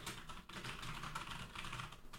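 Soft, rapid typing on a computer keyboard as a note is written, many quiet clicking keystrokes in a continuous run with no talking.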